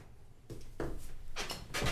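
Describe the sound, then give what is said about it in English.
Beer cans being cracked open: a few sharp pops, each followed by a short fizzy hiss, fairly faint and with no talking. “I ran out of my beer about 15 minutes into that section. So did I. So let's get these boys cracked open.”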